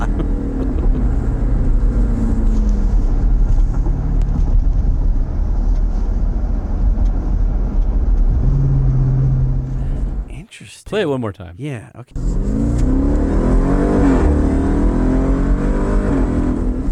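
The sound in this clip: A car engine likened to a Hemi or Hellcat gives a loud, deep, steady rumble with a few upward surges in pitch. Near the middle it is broken by a short stretch where people talk.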